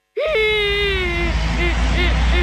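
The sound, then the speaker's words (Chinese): A voice crying like a lost child, voicing a cartoon waste battery, lets out a long high wail that lifts at the start, holds steady, then breaks into softer wavering sobs over a low rumble. “废电池，你怎么啦？ 我找不到我的家了。 哎，别哭别哭”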